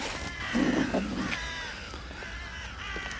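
Ravens cawing, a few harsh, hoarse calls rising out of a steady background hiss, fairly faint throughout.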